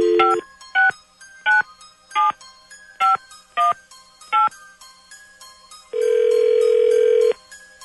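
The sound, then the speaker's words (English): Telephone keypad tones as a number is dialed for a direct office line: seven short, loud, evenly spaced beeps of varying pitch, then a longer steady tone lasting over a second. “let's try the direct line. Dialing at random.”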